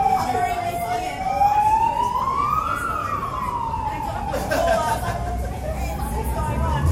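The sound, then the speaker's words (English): An emergency vehicle siren wails loudly and continuously, its pitch climbing to a peak and then sliding back down as it passes, over a steady rumbling background noise. “Sorry about the siren, folks. If we just pause for a second?”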